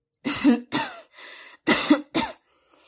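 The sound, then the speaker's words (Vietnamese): Several soft coughs come from a thin, pale, frail man covering his mouth with his hand, a short series of low, breathy bursts with brief pauses between them, then a faint trailing sound, alone without talk. “Nghe Nguyễn đàn chủ nói vậy, y đưa tay che miệng, khẽ ho mấy tiếng, rồi lại nói bằng giọng suy nhược.”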